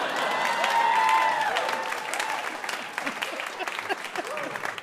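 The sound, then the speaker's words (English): An audience cheers and applauds a correct quiz-show answer. A whooping voice rises over dense clapping early, and the applause continues at a lively, slightly uneven level. “People cheered for that.”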